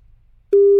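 A telephone tone sounds on a call: after near silence, a single loud, steady electronic tone starts abruptly and holds unbroken to the end, with no voices.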